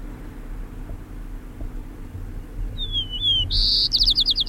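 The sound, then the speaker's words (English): A white-crowned sparrow sings over a faint low hum. After a quiet stretch, a clear high whistle slides downward, then gives way to loud, buzzy trilled notes that end the song. “White Crown Sparrow A. One.”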